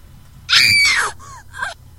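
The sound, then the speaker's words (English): A girl's terrified scream used as a sound effect: one loud, high wail falling in pitch over about half a second, then two shorter, fainter cries. “That is supposed to be a girl screaming in terror, but at the very end, it's just a little bit too provocative”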